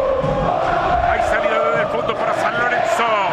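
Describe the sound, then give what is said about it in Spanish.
San Lorenzo football fans chanting in the stadium during a match against Boca, a steady massed sung chant with a voice talking over it. “Alienta el público de San Lorenzo.”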